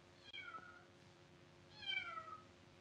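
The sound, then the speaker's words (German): A cat meowing outside a quiet workshop on a cold, rainy day: two faint, drawn-out meows, each sliding downward in pitch, the second longer and slightly louder, with no other sounds. “so war es derart still, dass man deutlich ein Miauen hören konnte.”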